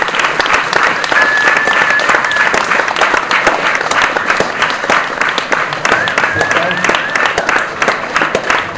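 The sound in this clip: Loud, sustained applause from a large audience at the end of a public debate, many hands clapping in a dense, continuous roar that stays strong for the whole stretch.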